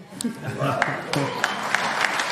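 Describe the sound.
Audience applause during a quick-fire either-or interview segment, a soft, scattered clapping texture with several sharp individual claps, heard under a person talking.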